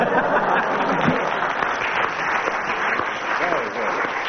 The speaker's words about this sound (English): clearly Tim and Willie have won that one on acclaim from the audience